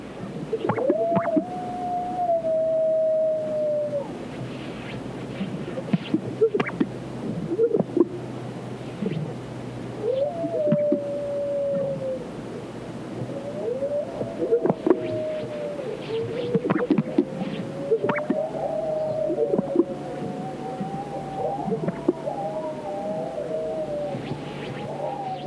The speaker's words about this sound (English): The eerie call of the greater sage grouse and the howls of a coyote echo across the arid sagebrush of California's Great Basin.